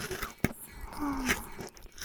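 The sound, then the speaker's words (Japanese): Chewing and swallowing mouth sounds: a sharp, crunching bite is followed by softer, wet chewing and mouth noises. The sounds are fairly faint and close. “もぐもしゃくしゃく咀嚼されて飲み込まれて”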